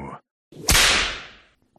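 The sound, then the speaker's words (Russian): A single whip crack, the kind a shepherd uses to drive sheep: a brief rising swish leads into one sharp, loud snap, followed by a rush of noise that fades over about a second. “Знакомый звук. Таким звуком гонит своих овец пастух, подгоняет хлыстом. «Мастер, это кнут!»”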